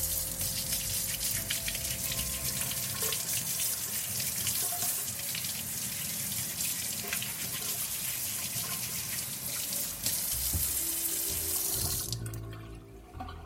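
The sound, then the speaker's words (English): Tap water runs steadily into a sink as unpeeled carrots are washed and scrubbed, a continuous, even gushing hiss with a few faint knocks that eases off near the end. “start cutting up these carrots. So I'm not even going to peel them. I am just going to wash them and scrub them down.”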